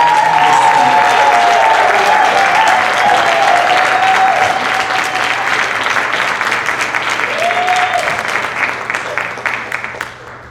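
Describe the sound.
Loud, dense applause from an audience welcoming a reverend onto the stage, clapping steadily and tapering off near the end.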